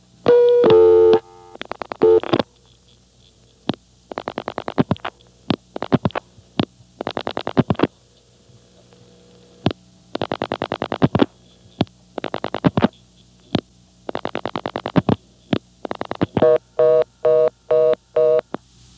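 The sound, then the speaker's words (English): Touch-tone telephone dialing on a line during a callback demonstration: a steady tone, then many short, sharp dual-tone beeps in uneven groups, with brief line signals and clicks between them, ending in a quick run of evenly spaced beeps. “So then it calls you back, or calls whatever number you dial back. It can be sicked on any number, of course. So, I'll demonstrate this. First, I'll dial 5 plus my own 7 digits.”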